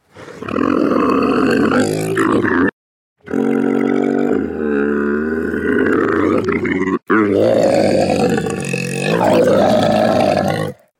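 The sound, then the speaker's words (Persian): A camel makes deep, gurgling grunts and roaring bellows with a wobbling, burp-like tone. Three long, loud bursts are separated by two short pauses, with no talk. “اگه بهتون بگم این صدای شتر بود، مطمئنن تعجب میکنید.”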